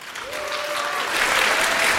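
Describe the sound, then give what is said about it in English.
Audience applause for a speaker at a congress, a dense, continuous clapping that swells slightly in loudness toward the end. “Big applause for Buddy.”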